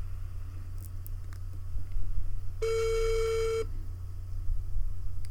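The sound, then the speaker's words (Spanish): A telephone ringback tone on an outgoing call sounds as a single steady ring lasting about a second, even in pitch, over a faint low background hum. “Vamos a marcarle a alguien y pues a ver si nos contesta.”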